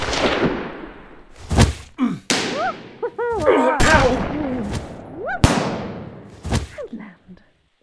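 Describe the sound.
Gunfire cracks out as a gun is fired in a dramatic scene. Several sharp, loud shots arrive at irregular intervals, with shouted voices between them.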